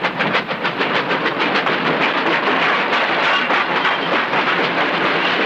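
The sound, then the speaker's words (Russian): A train arriving at a station rumbles loudly and continuously, with a rhythmic clatter of wheels running through the steady roar. “На станции прибывает поезд.”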